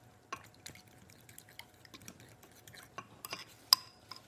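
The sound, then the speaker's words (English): A fork whisks a mixture in a bowl until smooth, making faint, irregular scraping taps and light clinks that repeat many times without a steady rhythm, with one sharper clink near the end. “so we're just gonna whisk this up. I'm gonna start with a fork. Until it gets smooth.”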